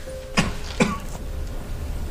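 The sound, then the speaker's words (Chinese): A person coughing: a couple of short, soft coughs in quick succession over a steady background hiss, then quiet. “咋还咳嗽上了？”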